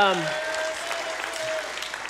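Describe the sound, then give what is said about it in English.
Audience giving a round of applause as a woman is invited up: steady, dense clapping throughout, with a voice briefly heard at the start. “And she give her a round of applause.”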